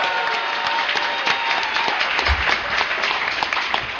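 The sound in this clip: Loud, dense audience applause at a Dragon Con panel as the crowd claps for a guest's mother, steady continuous clapping filling the whole stretch without letting up.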